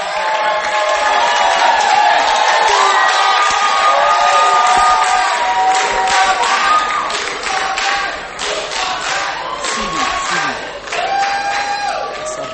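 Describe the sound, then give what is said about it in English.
A gospel concert audience welcomes performers to the stage with a loud, sustained roar of cheering, whooping and shouting voices that dips slightly toward the end. “Oh, put your hands together as we welcome Two for Christ.”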